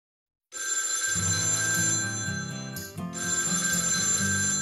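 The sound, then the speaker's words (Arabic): A telephone rings with a bright electronic ringtone, steady and continuous, with one brief break partway through. “أوه، إنه الهاتف”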